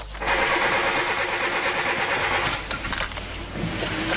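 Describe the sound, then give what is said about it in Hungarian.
A woman's car engine cranks but fails to start, with a worn-out battery suspected; a loud, steady grinding whir runs almost throughout, dipping briefly before carrying on. “Hiába próbálta, nem tudta beindítani kocsiját ez az asszony. Hát lehet, persze az akkumulátor jelez, hogy biztos kész.”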